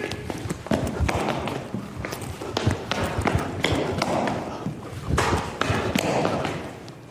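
A man jogs in place on a stage, his feet landing in a fast, steady run of heavy thumps and thuds that continues throughout.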